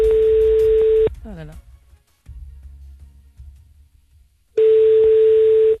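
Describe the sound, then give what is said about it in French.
A telephone line tone sounds while a call to a police station is placed: a steady, mid-pitched tone runs about a second, falls silent for several seconds of faint low noise with a brief chirp, then returns, unbroken. “C'est l'appel Bon Coin sur énergie, comme tous les soirs”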